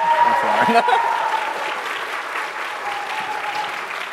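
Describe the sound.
Audience applause welcomes a minister at a church service, a dense steady clapping that starts full and slowly eases in loudness toward the end.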